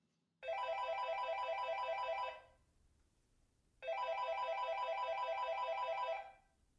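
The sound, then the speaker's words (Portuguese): Ringback tone of an outgoing telephone call: two long, buzzing electronic rings of about two seconds each, separated by a short silent pause, clear and steady with a bright harmonic tone. “Então eu vou ligar para ela e a gente já começa a conversar”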